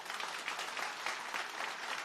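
An audience applauds a pianist at a live event. The clapping is steady and even, and faint and soft throughout, with no voices rising above it.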